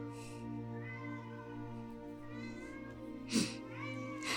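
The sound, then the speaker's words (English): A pet cat meows in drawn-out, wavering cries with no talk over them, fairly faint, with a brief rough burst near the end. “This is going to be really hard to do with my cat interrupting me every 5 minutes.”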